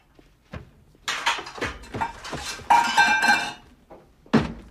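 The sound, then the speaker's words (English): Someone rifles through a kitchen cupboard, making irregular clattering clinks and knocks of dishes and utensils. The bursts come in uneven clusters with short pauses between them. “In the kitchen, Vincent opens a cupboard. No, the one by your knees. Vincent rifles through the cupboard as the men wait tensely.”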